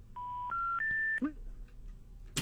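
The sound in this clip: Telephone keypad dialing tones: three steady beeps in a row, each pitched a step higher than the one before, followed by a brief voice and a short burst of noise.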